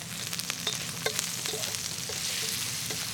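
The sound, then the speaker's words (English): Sausage sizzles and spits in a frying pan while it is stirred and pressed down, a continuous crackling fry dotted with scattered scrapes and clicks from the utensil, with no voices. “In this recipe, you see it sometimes the sausage is cut in slices, but I kind of just like to swizzle it around like that and kind of press it down.”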